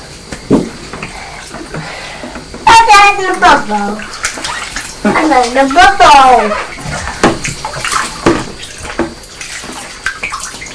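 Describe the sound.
Bath water splashing with bubbles as a young child plays in the tub, a few bursts of sloshing and splashing mixed with a child's voice and brief talk.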